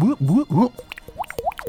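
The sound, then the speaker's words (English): Gurgling, bubbling liquid sounds of a puddle of corrosive acid: a brief voiced stretch, then a quick, uneven run of hollow plops and drips with short rising tones. “So as this podcast sinks into a gurgling puddle of corrosive acid...”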